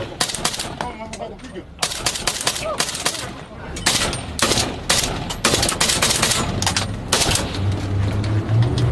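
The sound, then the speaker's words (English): Gunfire erupts around a Kenyan police patrol in an abandoned neighborhood of Haiti's capital: many sharp, loud shots and rapid automatic bursts crack out irregularly, some clustered tightly, others spaced apart, throughout the stretch. “We're joining the Kenyan police on a patrol. It's not long before we come under fire.”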